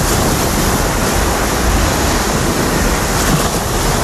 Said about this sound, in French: Le bruit de la mer et du ramassage donc des déchets sur la plage de la réserve de Boguillot